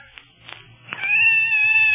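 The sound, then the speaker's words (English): A scared cat, hiding in a closet, gives one long, high meow that holds steady for about a second. It follows a few faint soft knocks. “It's a cat. Oh, nice kitty. It's scared.”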